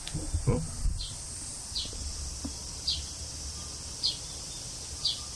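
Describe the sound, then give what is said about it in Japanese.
House sparrows that nest at a home give a few faint, high, evenly spaced chirps, each brief and thin against a low, steady background hiss. “子供やこれ、 よう来るんですよ、 うん、あのうち巣作っとるんですよ、 チュンタですね、チュンタ、はい、スズメです”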